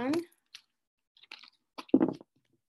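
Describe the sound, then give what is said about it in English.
A Sacred Rebels Oracle card deck being shuffled: a few short, papery riffles and clicks separated by silence, with brief vocal sounds at the start and near the end. “So now I'm going to shuffle the cards. I'm using the Sacred Rebels Oracle for this message. And I'm going to shuffle 3 times.”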